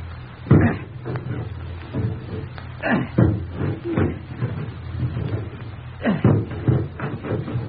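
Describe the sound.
An axe chops through a locked wooden door to a room, striking a series of heavy, irregular thuds and cracks with short pauses between blows.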